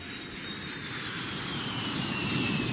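Airplane in flight, on a trip to Minsk: a steady, dense engine roar with a broad rushing hiss, holding constant and growing slightly louder toward the end, with no voices.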